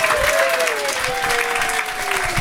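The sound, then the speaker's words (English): A comedy show audience at a festive Christmas special applauds steadily, with a sustained whoop of cheering gliding over the dense clapping. “And will you please keep that festive cheer going for Matt Stewart and Jess Perkins, here they are!”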